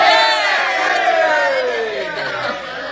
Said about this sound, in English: Wait a minute now. Don't shout for me, folks.